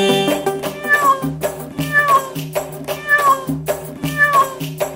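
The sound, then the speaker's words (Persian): A voice imitates a cat meowing within a sung children's rhyme, giving four drawn-out meows with falling pitch over rhythmic musical accompaniment. “با صدای چی با صدای گربه”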